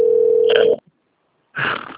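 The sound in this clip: Steady telephone ringing tone for a call, a single pitch held under a second before it stops abruptly; after a short silence comes a brief, louder, noisy burst.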